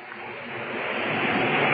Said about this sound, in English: Listen, James. What? The wind and the tide.